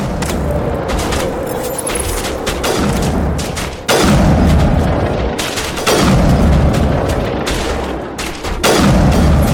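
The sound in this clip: Rapid video game gunfire as the player shoots at enemies: loud, dense bursts of shots with booming impacts, running almost continuously with brief dips between volleys.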